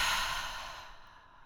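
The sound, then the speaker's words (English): A deep breath let out as a long, soft sigh, an airy exhale that starts fairly loud and fades gradually over about a second and a half, with no other sound. “Just take a deep breath and just let it out.”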